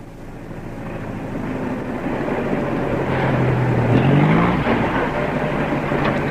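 A taxi driving along, with a steady engine drone and road rumble whose pitch climbs and swells midway, then eases back to an even hum.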